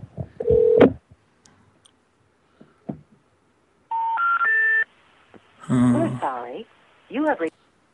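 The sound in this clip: Touch-tone beeps of a phone number being dialed on a telephone, a short run of stepped tones, with people talking before and after.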